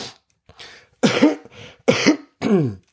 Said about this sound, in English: still got that cough as you can see.